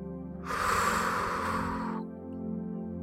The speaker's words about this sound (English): So just come on, take a deep breath right here.